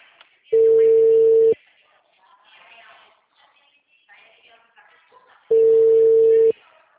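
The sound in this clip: Ringback tone of a phone call being placed: two long, steady, mid-pitched beeps, each about a second, separated by a long gap in which voices talk quietly.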